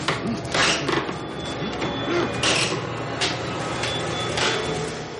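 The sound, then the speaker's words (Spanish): Cracking and scraping of wooden boards at the back of a wardrobe being broken with a crowbar: several broad, rough bursts rising over a steady low background. “con ayuda de una palanca rompe las maderas del fondo.”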